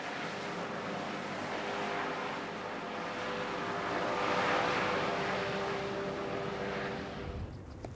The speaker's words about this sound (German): Der Patient wird zur Partnerklinik nach Leer geflogen.